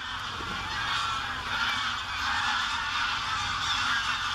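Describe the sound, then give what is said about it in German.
Greylag geese honking as a flock, a dense, continuous chorus of overlapping nasal honks at moderate level with no break. “So klingen Graugänse.”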